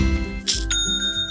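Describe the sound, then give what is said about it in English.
Short, bright bell-like chime signalling a sale on an online store platform. Clear ringing ding tones sound over about a second. “That's the sound of another sale on Shopify and the moment another business dream becomes a”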